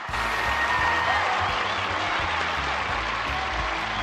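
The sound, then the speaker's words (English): Applause from an audience of animated characters at a club show, a steady dense wash of clapping that holds at an even level throughout. “Later, the audience of animated characters applauds.”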